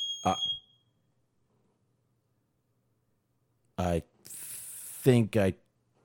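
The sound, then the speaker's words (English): One short, high-pitched electronic chirp from a bedroom fire alarm whose battery is dying. A few seconds of silence follow, then a voice speaks. “that was a fire alarm going off in the bedroom here. There's no smoke, it's just the battery is dying on it.”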